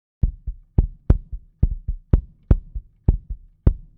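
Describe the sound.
Kick drum recorded by an AKG D112 microphone placed inside the drum toward the front skin and aimed at the beater: many deep, punchy thumps with sharp attacks in a quick, uneven pattern, alternating louder and softer strokes.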